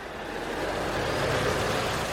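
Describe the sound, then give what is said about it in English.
A truck loaded with bananas passes at a border crossing where protesters are holding up traffic: a steady, broad engine and road rumble that grows slightly louder, with no voices. “This truck is full of bananas”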